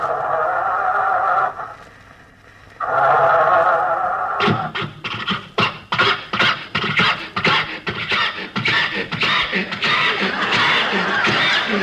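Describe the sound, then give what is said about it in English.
An old car motor that keeps dying is cranked to start, producing a long run of rapid, irregular sputtering and chugging bursts. Laughter and talk come just before it. “Yes, sir. I'll start the car.”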